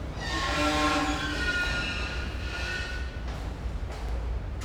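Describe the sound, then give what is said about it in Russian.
A train rolls along with a steady low rumble, and a sustained horn tone sounds through the first half before fading under the running noise. “Какой замечательный у нас волшебный поезд”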